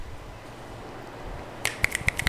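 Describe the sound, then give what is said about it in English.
Fingers snapping into microphones as applause at a poetry reading: after a quiet stretch, a quick run of many sharp, crisp snaps rings out, some overlapping, in a brief uneven burst toward the end. “I don't know if you can tell, but we're snapping into the mics, which is traditional applause for poetry.”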